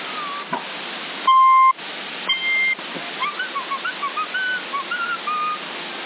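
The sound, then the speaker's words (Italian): Whistling sent over CB radio on the 27 MHz band: a steady tone, then a higher steady tone, then a quick run of many short whistled notes. All are thin and band-limited over constant radio hiss. “Avanti il fischietto. Avanti il fischio.”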